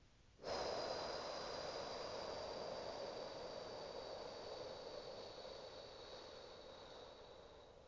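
A slow, steady exhale from a breathing exercise: a faint, airy breath that begins abruptly and flows evenly for about seven seconds, fading slightly toward the end, with no voices.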